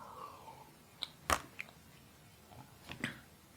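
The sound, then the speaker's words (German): Quiet mouth sounds of someone taking a drink: a few soft sips, clicks and swallows scattered over a few seconds against a low hiss. “Und zwischendurch muss ich auch mal kurz was trinken.”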